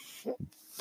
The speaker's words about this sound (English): That noise you're hearing is my ventilator.